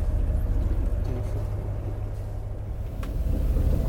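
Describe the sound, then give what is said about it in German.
Steady low rumble and wind buffeting as a sailing boat heads out of a bay on its first outing, continuous and even throughout. “Ja, und dann sind wir segeln gegangen. Endlich, zum ersten Mal auf unserem Boot. Also wir fahren jetzt aus der Bucht raus.”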